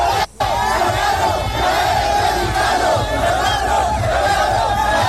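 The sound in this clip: Football fans loudly shout a chant during a celebration: a dense, continuous roar of many voices with rhythmic pulses and one brief gap near the start.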